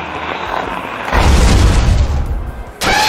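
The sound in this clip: A ghost-type Psycho Trick attack effect from a video game battle: a whooshing noisy texture that swells into a loud, heavy rumbling surge, sags briefly, then ends in a sudden bright burst.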